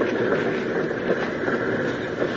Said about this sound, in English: Hold the train, Mr. Hamilton. Right. All right, that's good. Hold her there.